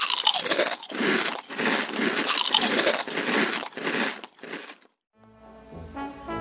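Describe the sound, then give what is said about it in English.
Loud, crisp crunching and chewing of plain potato chips, with many rapid bites in a dense run that stops abruptly near the end. “let's split a bag of plain chips and call it a day.”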